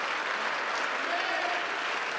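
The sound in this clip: A church audience clapping their hands together in celebration during a service, a fairly quiet, even and continuous patter of many hands without clear breaks.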